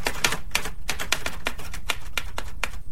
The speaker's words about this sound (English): I'll have to type it again.